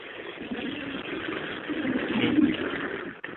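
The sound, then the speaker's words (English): A loud motorcycle engine drones as a low, rough growl that swells toward a peak past the middle, then falls away near the end. “Wow, that's a loud motorcycle.”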